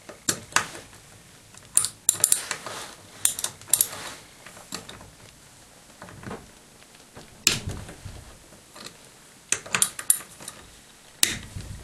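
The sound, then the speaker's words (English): Sharp metallic clicks and clatter of a 1/2 inch socket wrench removing a turret assembly, coming in many short bursts separated by brief quiet gaps. “We're next going to take off this turret assembly here. To do so, we use a 1/2 inch socket.”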